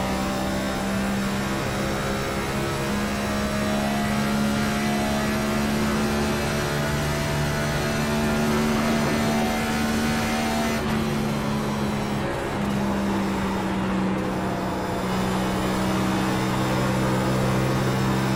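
Engine of a car driving laps on a race track, a steady, loud droning whine with strong harmonic tones that hold a fairly constant pitch, shifting slightly midway through before settling again.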